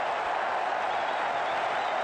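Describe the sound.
Crowd cheering at a cricket match as Peter Siddle bowls on a hat-trick, a steady, loud, continuous roar of many voices and some clapping.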